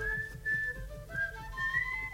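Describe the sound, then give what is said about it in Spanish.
A woman whistling a tune, a soft, clear melody of held and gliding notes that step up and down in pitch, faint and alone without talk. “Muy bien, gran silbadora”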